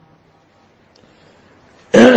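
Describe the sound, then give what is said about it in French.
A single loud throat clearing bursts out at the very end, after a stretch of near silence. “Je racle ma gorge parce que vous devez bien entendre ce que je vais dire aujourd'hui.”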